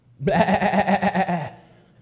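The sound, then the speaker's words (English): A sheep bleats once in a long, quavering call with a rapid tremolo that holds steady for over a second before cutting off and fading, heard alone. “Bible says, there was the sound of the bleating of sheep. Well, what's that I hear?”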